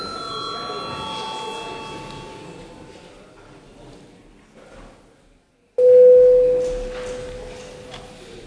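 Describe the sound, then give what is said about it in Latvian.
A voting bell sounds during a parliamentary session to call a vote: one loud, steady electronic tone begins abruptly and then slowly fades. “Lūdzu zvanu, balsosim par 10. deputātu Kalnozola iesniegto priekšlikumu.”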